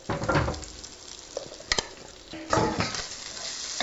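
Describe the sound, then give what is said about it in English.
Onions sizzle in olive oil in a skillet, a steady crackling hiss. A few sharp scrapes and knocks of stirring rise above it. “I'll put a drizzle of olive oil in that skillet for the onions, knowing that later I'll add a little more bacon fat.”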